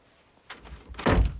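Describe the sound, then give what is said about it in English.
An office door being closed: a few soft scuffs, then a solid, low thunk as it shuts, brief and moderately loud. “steps aside and closes the door”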